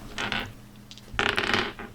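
Dice rolled on a table during a tabletop role-playing game, with short clattering rattles in two bursts: a brief one, then a louder, longer tumble.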